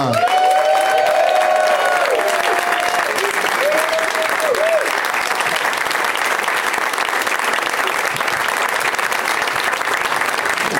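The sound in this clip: Sustained audience applause welcomes four guests onto a comedy show, a loud, even wash of clapping lasting around ten seconds, with a voice speaking over the opening seconds.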